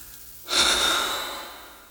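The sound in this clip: A singer takes a single airy breath at the end of a song, swelling quickly and then trailing away slowly, alone and fairly loud.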